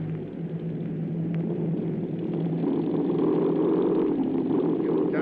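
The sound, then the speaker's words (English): A plane's motors give a low, steady rumble during a forced landing, droning continuously without a break and growing slightly louder and rougher toward the end. “Wheels down. Wheels down. Hey, what happened? Why the forced landing?”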